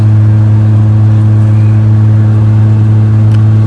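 A car engine drones steadily while the car is being driven home after a match. It is a loud, even low hum with road noise and no clear change in pitch.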